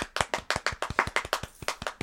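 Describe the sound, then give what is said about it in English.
Edited-in clapping effect: a quick run of sharp, distinct hand claps in a steady, brisk rhythm, each crisp and separate rather than blending into a crowd roar. “Can you edit in people clapping? Yeah, sure. Yeah, but this is what you're hearing right now is edited in.”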